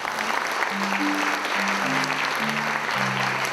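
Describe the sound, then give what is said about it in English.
Audience applause for the panelists at an evening event on artificial intelligence: steady, even clapping throughout, with soft sustained musical notes in the background. “I wanted to have the audience thank the panelists and make sure you go to their website.”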